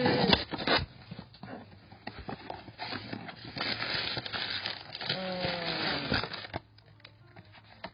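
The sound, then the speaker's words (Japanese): An unopened cardboard box is torn open, with irregular bursts of crinkling, scraping and tearing of cardboard and packing material, some sharp and some drawn out, ending in quieter rustling. “なんだか得体の知れない未開封の段ボールが出てまいりました開けてみたいと思います。”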